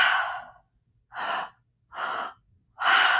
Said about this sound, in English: You inhale to your low belly with the inhale, inhale to your high chest, and then exhale through the mouth. So it sounds like this.